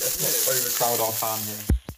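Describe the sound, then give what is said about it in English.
Kielbasa sausage sizzles while frying in a pan, a loud continuous crackling hiss with voices talking underneath, ending in a brief clatter. “that's a lot of sizzling going on.”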